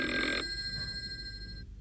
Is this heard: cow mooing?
no